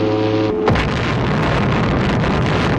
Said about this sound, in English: listen to that sound. First atomic bomb successfully exploded in New Mexico.